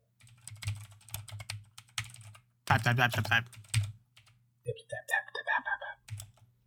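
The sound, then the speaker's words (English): Typing on a computer keyboard, quick bursts of light clicking keystrokes with a low hum beneath, interrupted by stretches of people talking. “Type louder so the people will know.”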